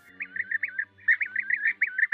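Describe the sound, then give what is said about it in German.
European bee-eater calling: rapid runs of short, rolling, mid-high chirps repeated in quick rhythm, one run followed by a brief pause and then a longer second run, clear over a quiet background. “Ja, der Bienenfresser ist einer der buntesten Vögel Europas.”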